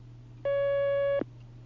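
A telephone line tone sounds as a new caller connects on a call-in line: a single clean, steady electronic tone, held for under a second over a low background hum, then cut off.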